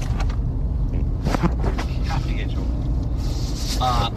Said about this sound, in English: So this is our on the road version of our intro here. We are driving a little bit through Fruita, Colorado, picking up some stuff.